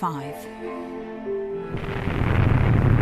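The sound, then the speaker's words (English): Archive film of the first atom bomb test explosion in New Mexico, a bomb set off on a steel tower and filmed from about 6 miles away: after a brief voice, a deep roaring rumble surges in and keeps swelling louder. “Film showing the bursting of the first atom bomb, the experimental one, in New Mexico. It was dropped from a steel tower and filmed from about 6 miles away.”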